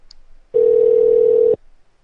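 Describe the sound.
A single steady telephone tone, lasting about one second, sounds alone during a call placed to a hotel front desk.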